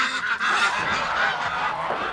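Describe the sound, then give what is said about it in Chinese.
A white domestic goose honks harshly and almost without pause, its loud, nasal calls running through the whole short clip with no voices. “这鹅一洗澡可白了，天天早上起来一开门自己就下河了。”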